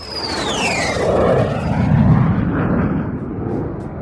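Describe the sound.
A jet airplane takes off, a high whine sliding downward over a broad, steady roar that swells and holds for several seconds.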